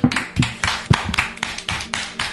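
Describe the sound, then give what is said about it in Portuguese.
Applause made of steady, evenly paced handclaps, many in a row, crisp and moderately loud, with no voices over them. “Agora, eu peço, por favor, uma salva de palmas.”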